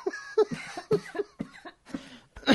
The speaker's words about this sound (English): Excuse me, I'm choking to death.